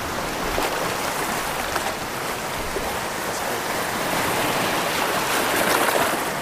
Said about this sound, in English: So the waves are just sort of gently, very gently crashing against the beach right now, with the white foam.